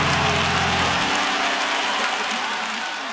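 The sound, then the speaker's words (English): An audience claps during a church worship service: dense, steady applause with sustained musical tones beneath it for the first second. The clapping then continues alone and eases slightly toward the end. “Come on, clap your hands and say he turned it.”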